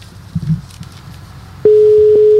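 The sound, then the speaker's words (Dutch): Telephone tone heard while placing a call: a single steady mid-pitched tone starts partway through and holds unbroken to the end, following a stretch of low, faint rumbling noise. “Maar we moeten hem even bellen, toch nog? Ja, Mario Been gaan we gewoon even bellen.”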